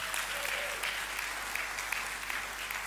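At a Sunday church service, an audience applauds to welcome a man to the front. The clapping is steady and fairly soft, with a dense, even patter throughout.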